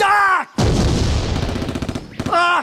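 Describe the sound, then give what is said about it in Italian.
A gunshot sound effect in a comedic war scene: one loud blast with a long rumbling decay, set between bursts of voices. “Mi hanno sparato un piede!”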